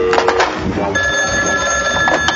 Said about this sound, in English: My other phone is ringing.